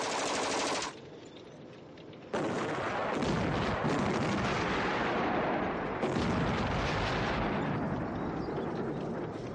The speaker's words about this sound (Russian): Выпущенные танками снаряды рвутся в нескольких десятках метров от окопов.